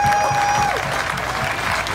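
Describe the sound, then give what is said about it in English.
Applause from an audience honouring a wrestler: steady, dense clapping at an even, loud level throughout, with a thin, shrill whistle-like tone over the first part. “So I would like to give you a big round of applause for that.”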